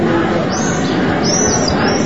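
Swift chicks call from nests in the cracks of an ancient wall at a religious site. A few thin, high-pitched screeching calls sound over a steady, dense background noise.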